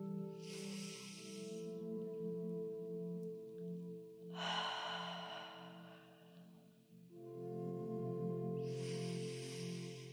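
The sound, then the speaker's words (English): Deep breaths in and out during a guided breathing exercise: three long airy rushes of breath spaced a few seconds apart over a soft, sustained musical drone, with no talking. “take three or four nourishing breaths in for a count of four, hold it, and then out for a count of six”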